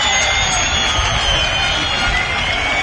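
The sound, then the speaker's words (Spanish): A football crowd greets Utrera as the team takes the field, with its own fans applauding while Recreativo supporters whistle. A loud, continuous roar carries thin, sustained high whistling tones. “Salta el Utrera ahora también con los aplausos de su afición y los pitos de la afición recreativista.”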